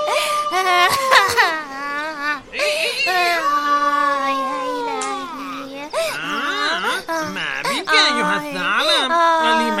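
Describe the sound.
A voice cries and wails, long and loud, with wavering, sliding pitch and sobbing breaks across the whole clip, nearly continuous with brief dips.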